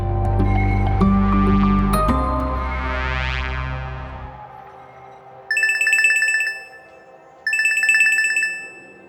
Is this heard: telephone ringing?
yes